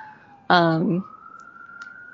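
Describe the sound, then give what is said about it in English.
A police car siren passes by as a thin, steady wail whose pitch climbs slightly. A short, louder voice-like sound briefly breaks in over it near the start. “there's a police car going by, because of course.”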